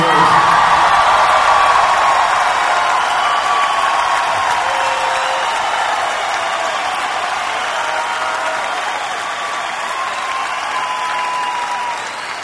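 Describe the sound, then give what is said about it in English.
Concert crowd applauding for Neil Young, a long, loud wall of clapping with scattered crowd noise that gradually eases off toward the end. “So everybody give a big hand for Neil Young.”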